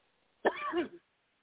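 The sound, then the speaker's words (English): A single brief, rasping throat clearing, loud and harsh for about half a second with a small trailing catch at the end, heard alone with no talk around it. “Throat chakra clearing. That's what we're talking about. It's clearing itself out.”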